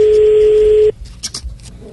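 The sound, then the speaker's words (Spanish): A telephone's steady dial tone hums for about a second and cuts off, followed by a few short, faint tones and clicks as a number is keyed in. “ahí está voy a marcar aquí”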